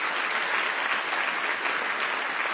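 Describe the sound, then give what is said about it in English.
A church audience applauds with dense, steady hand clapping that runs without a break, loud and even throughout. “Give our Lord Jesus a big hand clap.”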